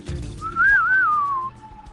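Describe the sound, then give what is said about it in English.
A person whistles a short, wavering note that dips and rises slightly before trailing off, heard alone and fairly loud for about a second. “My whistle was quick. Do it again.”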